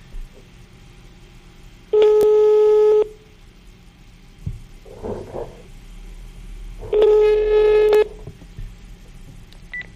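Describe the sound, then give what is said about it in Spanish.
An unanswered telephone call rings twice, each steady tone lasting about a second, with several seconds of faint noise between the rings. “No contestó. Le vamos a marcar a otro.”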